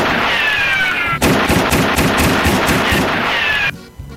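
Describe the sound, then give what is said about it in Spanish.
Video game pistol gunfire: a rapid, loud run of many sharp shots over a dense, noisy bed. A steady hiss precedes the burst and returns faintly after it. “Oh, se te arrancó la pistola”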